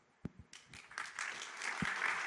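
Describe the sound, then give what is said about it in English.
Audience applause at a multi-day talk event begins with a few scattered, sharp claps, then swells into steady, fairly soft continuous clapping. “They're pre-clapping for your question because they know the next one's going to be a banger.”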